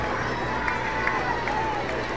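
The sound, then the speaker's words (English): A sellout stadium crowd cheers at a baseball game after a clutch base hit, a steady, dense roar of many voices that holds at an even level throughout. “This sellout crowd going wild.”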